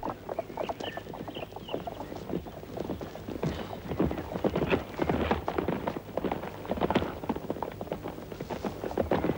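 Hooves clip-clop as a boy rides a horse, many quick, uneven hoofbeats that continue without pause, moderately loud throughout.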